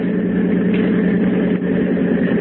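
Boat engine running as the boat pulls alongside a drifting lifeboat, a loud, steady low-pitched drone with an even throb that does not change.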